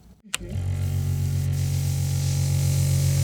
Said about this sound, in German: legt man diesen Arm hier auf die Schallplatte drauf und äh, startet die Pumpe